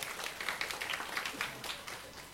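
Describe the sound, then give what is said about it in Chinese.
Applause for the mothers at a church gathering, a continuous patter of many hands clapping at a steady, moderate level throughout. “好，再给妈妈掌声好吗？”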